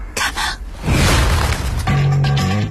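Gunfire-style sound effects from a film trailer: two short sharp bursts, then a loud booming blast that rumbles on, with a sustained tonal note entering near the end.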